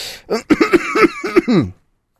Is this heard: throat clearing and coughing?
yes